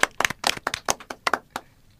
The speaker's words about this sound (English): We need to clap for Achol.